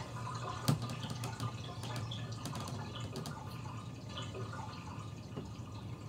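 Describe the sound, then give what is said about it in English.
Water runs steadily from a tap, a continuous hissing rush with a low hum beneath and a brief knock early on. No voices. “Now you're just wasting water.”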